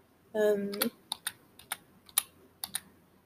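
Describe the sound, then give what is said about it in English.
One hand types on a computer keyboard. A short voiced sound comes first, then about ten sparse, irregular key clicks follow, fairly faint and spaced apart. “I'm trying to type something in. I'm only trying to use one hand on the computer”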